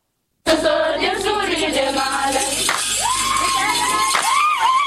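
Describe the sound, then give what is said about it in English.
Crowd of community members in Nyarega gathered to welcome home a local hero, a loud, continuous mass of cheering and shouting voices that bursts in suddenly and keeps up without pause. “Dozens of community members of Nyarega gathered to welcome back home their local hero, now a Joy News Impact Makers Award winner.”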